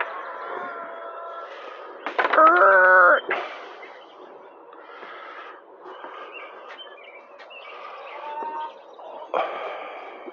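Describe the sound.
Chicks chirp at dawn in a scattering of high, thin peeps, with one louder, denser burst near the middle. Fainter peeping runs over a soft, continuous background.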